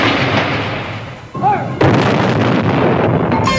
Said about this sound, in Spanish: esta dio la orden de disparar los cañones para el cine